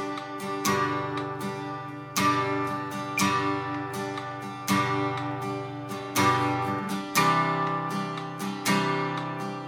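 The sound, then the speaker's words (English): Guitar playing a slow strumming pattern at 60 beats per minute with down and up strums. Full ringing chords repeat in a steady cycle, stronger accented strums alternating with lighter ones, with no talk. “For this level, we're going to learn how to play our first strumming pattern to the song. Since this will be a little bit challenging at first, we're going to slow our tempo back down to 60 beats per minute. At this tempo, the strumming pattern is going to sound like this.”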